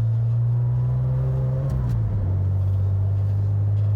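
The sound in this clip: Car interior road noise while driving: a loud, steady low rumble fills the cabin throughout, with the engine tone dipping slightly partway through and no speech.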